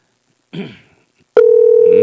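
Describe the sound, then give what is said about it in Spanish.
A telephone tone sounds as a live on-air call is placed. After a brief burst of other sound, a flat, unbroken mid-pitched tone starts abruptly and holds loudly to the end. “estamos llamando a Robinson Garrido, ¿eh? Para que vean ustedes. Estamos en vivo. 7 de la mañana con 22 minutos. No nos quiere responder.”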